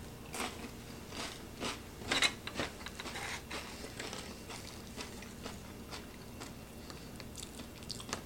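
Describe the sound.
Underwood Premium Quality Deviled Ham Spread on a cracker is chewed with many faint, soft crunching bites, one a little louder near the start. No one talks.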